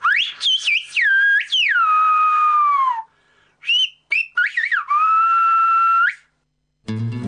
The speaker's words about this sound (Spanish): Permítanme compartirla con ustedes, con ese regalo que los maestros gomeros me hicieron. Vamos a decirlo silbado.